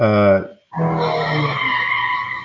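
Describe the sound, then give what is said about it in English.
Car tires screech as street racers do donuts out on the street, a sustained, loud squeal that starts after a brief voice and holds steady to the end. “Yeah, so out in front of our street, they like to drag race and do donuts out there in the street.”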